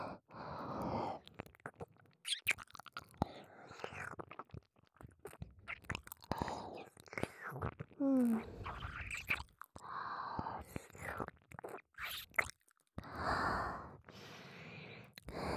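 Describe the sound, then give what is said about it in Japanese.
Soft ASMR ear licking and wet mouth sounds: many short, wet smacking bursts alternate with quiet whispering and breaths, broken by brief pauses. “このお耳をレロレロって舐め回して、汗を拭き取ってあげるからね。”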